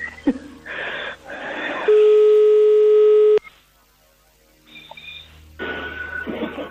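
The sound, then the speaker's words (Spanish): Telephone tone heard while a call is being dialed: a single long, steady, mid-pitched tone lasting about a second and a half, set between stretches of muffled background noise. “Estamos marcando, ¿eh? A ver si nos coge.”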